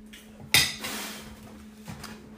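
A metal pan set down on an empty stovetop gives one sharp, loud clank, then a softer knock a little over a second later, over a steady low electrical hum.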